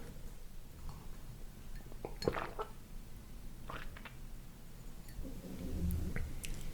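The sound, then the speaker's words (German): Tea sipped from a cup: a faint, wet slurp with soft mouth sounds and a light clink of the cup, heard alone with no talk. “Darauf einen Schluck Tee.”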